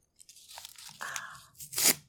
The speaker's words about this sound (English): Here, I'll rip up these ones dramatically.